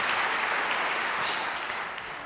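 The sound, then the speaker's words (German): An audience applauds the WDR Funkhausorchester after a concert piece in the large broadcast hall of the WDR Funkhaus, a dense, steady clapping that tapers slightly at the end. “Ein Riesenapplaus bitte nochmal für dieses sensationelle Orchester.”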